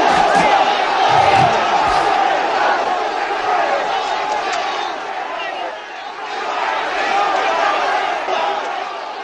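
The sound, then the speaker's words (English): Shouting from a dense crowd of traders on a stock exchange trading floor forms a loud, continuous roar of overlapping voices that stays steady throughout with only a brief dip. “Now here's the stock exchange again.”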